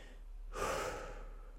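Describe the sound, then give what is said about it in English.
One deep breath: a soft, airy rush that swells and then fades over about half a second, heard alone without speech. “And then I took a deep breath”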